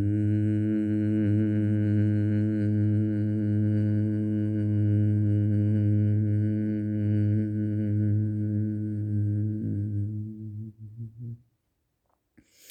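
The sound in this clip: Steady, low vocal humming during a yoga breathing exercise, held as one even, rich tone for about eleven seconds before it fades and stops into near silence.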